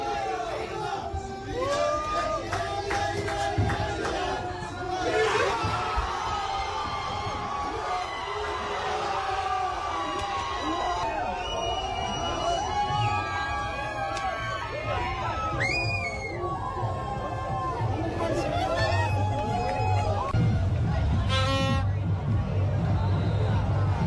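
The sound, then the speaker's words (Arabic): Fans celebrating a win in New York City, a dense crowd of excited voices cheering, shouting and screaming over continuous babble, loud and sustained throughout. “اليوم نشوفوا فرحة كبيرة من الجمهور. نخليكم تعيشوا فرحة الجماهير هذه من قلب مدينة نيويورك بعد الفوز.”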